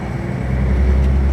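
Low, steady engine rumble of a ship heading back into a harbour on the North Sea, loud and continuous with a dense low-frequency drone and no voices.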